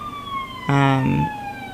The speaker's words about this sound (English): I'm distracted by the siren outside.